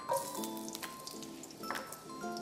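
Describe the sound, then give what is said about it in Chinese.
Garlic slices fry in hot oil in a wok, giving a steady, fairly quiet sizzle with scattered crackles and faint sustained musical tones underneath. “开火热锅，锅热了以后再倒入稍微多一点的油，油热了以后倒入蒜片、”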